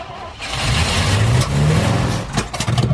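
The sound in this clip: A car engine revs loudly as its crew tries to drive off after fixing the prop shaft, though the clutch has failed. The roar is dense and steady, with a low drone that climbs slightly and turns rough and uneven near the end.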